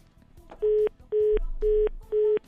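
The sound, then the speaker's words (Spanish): Telephone tone on a call that fails to connect: four identical steady beeps at an even pace, each about a quarter second long, separated by short silences. “No está entrando la llamada”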